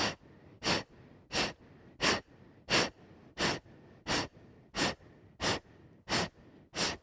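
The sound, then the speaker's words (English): Forceful exhales pushed out from the stomach in a breathing-exercise class: eleven sharp, evenly spaced huffs of air in quick, steady rhythm, each short and punchy, with no talking. “exhale, exhale, exhale. 1, 2, 3, 4, 5, 6, 7, 8. Exhale, exhale, stomach. Stomach sucks in.”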